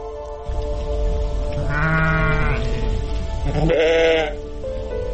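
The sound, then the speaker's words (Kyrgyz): Sheep bleat on a farm at lambing time, with ewes giving birth. Two drawn-out, wavering bleats stand out loudly above a constant low rumbling background. “Туу атабы койлар. 5 кой туду, бирөө эми туу отуру.”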